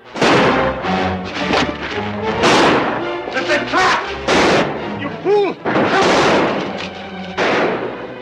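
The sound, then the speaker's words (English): Gunfire as a stallholder opens fire on robbers outside the North Vernon State Bank, with several loud, heavy shots booming in uneven bursts alongside a narrating voice. “As the Renos pile out, the stallholder opens fire.”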